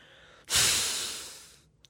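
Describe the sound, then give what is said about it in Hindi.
A forceful kapalbhati breathing exhalation during yoga practice: one loud, breathy rush that starts abruptly and tapers off over about a second, followed by a brief, quick sniff. “सांस बाहर निकला पेट अंदर गया”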